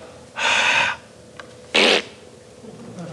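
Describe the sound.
A voice imitates a forceful puff of breath with two breathy bursts, the first longer and steady, the second shorter and louder, separated by a quiet gap.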